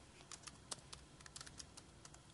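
Quiet typing on a computer keyboard, with many light, irregular keystrokes clicking in quick bursts and short pauses.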